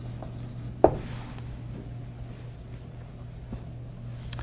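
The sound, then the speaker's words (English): Someone writing something down makes a steady, faint scratching. A single sharp tap comes near the start, and a constant low hum runs underneath. “I'm just going to go ahead and write down the Levitical sacrificial system”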